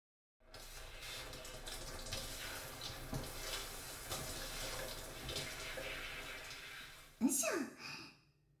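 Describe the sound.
Water pours in a steady, continuous rush to rinse someone during washing. It is followed by a short vocal sound near the end.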